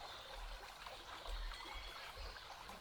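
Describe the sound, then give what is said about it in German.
Gentle splashing and trickling of flowing water, a continuous soft babbling with an even hiss, and occasional dull low rumbles underneath, with no voices. “Dieses sanfte Plätschern.”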